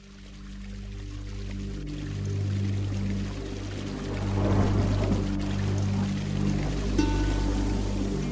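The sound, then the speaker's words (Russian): Heavy rain pouring down on an evening, a dense, steady hiss that swells slightly midway and continues without pause to the end. “Однажды вечером дождь лил, как из ведра, и дети шлепали по воде”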